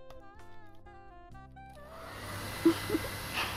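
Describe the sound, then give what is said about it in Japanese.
A hair dryer blows on a salon customer's hair, starting partway through after soft tonal music and then holding a steady, broad whoosh with a couple of small bumps. “そろそろ大丈夫そうですね。椅子起こしていきますね。では乾かしていきます。”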